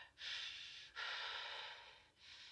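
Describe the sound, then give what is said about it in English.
Deep, slow breathing: a few long, airy breaths in and out, each a soft, sustained hiss that swells and fades, fairly faint and heard alone without speech. “Just calm down and take a few deep breaths.”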